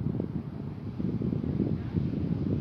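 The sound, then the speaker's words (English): Wind buffets a microphone with a low, rumbling roar that pulses in uneven gusts. It stays fairly faint and steady, and no voices are heard. “It's not going too well because of wind.”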